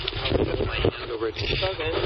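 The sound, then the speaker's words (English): Wind blowing into the microphone produces a deep, rumbling buffet of gusts beneath people talking throughout. “Here comes the wind, which will destroy the recording.”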